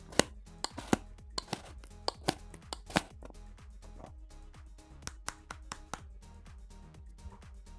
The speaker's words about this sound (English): Grind that up. It's a shit grinder, I tell you that, mate.